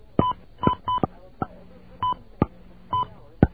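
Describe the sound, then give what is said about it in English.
Telephone keypad tones while entering a time into an automated phone service, several short beeping tones in an uneven sequence, with sharp clicks between them. “Please dial the time at which you want me to start trying, followed by the letters a.m. or p.m.”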